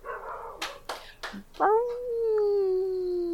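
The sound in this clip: A pet animal howls in one long, sustained, steady tone lasting nearly two seconds, after a few short knocks and clicks.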